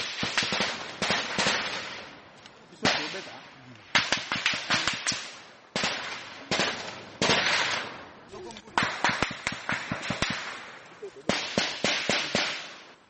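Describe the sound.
Gunfire during a rebel ambush on a military convoy on the Mbau–Kamango road near Beni, DR Congo. Sharp cracks come in many rapid clusters, loud and irregular, with brief gaps between bursts.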